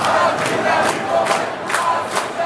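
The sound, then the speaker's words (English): Roaring cheers from about 20,000 football fans at AT&T Stadium watching a World Cup soccer match on a giant screen: a loud, continuous crowd roar that swells in several surges. “That's the sound of 20,000 football fans cheering at AT&T Stadium this afternoon, but not for the Cowboys. They were watching World Cup soccer on one of the world's biggest TV screens.”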